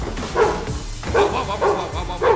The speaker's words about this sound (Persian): سگت جمع کن. نفشو یارو. سگت توفتیت جمع کن.